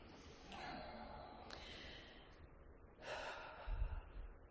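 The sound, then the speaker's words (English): Two big, audible exhales, long breathy rushes of air released to let go of the day, each sustained for over a second, with the second stronger and ending in a low rumble. “I like to give myself a couple of nice big audible exhales. Let go of the day.”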